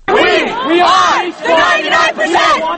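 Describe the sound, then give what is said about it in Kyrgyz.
A crowd of Occupy Wall Street protesters near Zuccotti Park chanting in unison about the 99%. Loud shouted phrases come in three bursts with short gaps between them. “Акциянын катышуучулары болсо, ушинтип биз элдин 99% түзөбүз деп байлыктын көп бөлүгүн 1% гана байлар колдонуп атканын кыйкырып атышты.”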